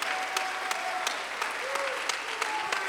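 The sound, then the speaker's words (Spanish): A church audience clapping their hands during a service, a steady, even wash of applause with sharper accented claps at regular intervals, a voice faintly carrying above it. “Aplaude sus manos.”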